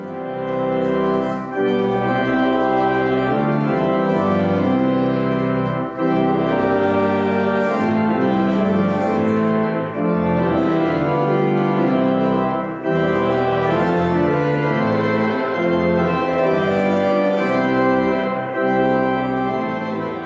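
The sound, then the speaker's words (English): The Lutheran hymn Wake, Awake, for Night Is Flying plays in full, rich sustained harmony, moving through steady chordal phrases separated by a few brief breaks, loud and continuous throughout. “What you're hearing is the hymn, Wake, Awake, for Night is Flying.”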